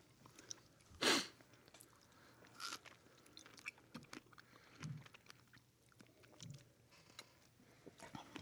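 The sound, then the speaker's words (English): Someone bites into a strawberry eaten with dessert wine. One crisp bite is followed by faint, quiet chewing and small mouth sounds. “let me give me a try here with the strawberry.”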